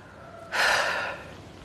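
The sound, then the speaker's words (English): A person lying down in a garden takes one deep, airy breath that swells suddenly, holds for about half a second and fades, over quiet background noise. “I lie down and I breathe deeply.”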